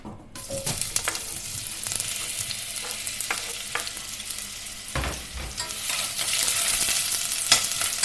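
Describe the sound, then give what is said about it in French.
Onions searing in about a tablespoon of olive oil give off a steady, bright sizzle, with scattered clicks and scrapes of stirring throughout and no talking. “un petit peu d'huile d'olive, l'équivalent d'une, d'une bonne cuillère à soupe d'huile d'olive. Voilà. On va mettre à saisir nos oignons.”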